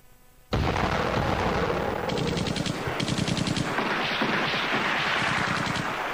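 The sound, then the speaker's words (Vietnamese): Dense, continuous gunfire rolls through a radio drama battle scene, with rapid bursts and heavy booms crowding together without a break. The loud barrage runs to the end with no voices over it. “trong tiếng pháo của quân giải phóng nổ dồn dập khắp nơi”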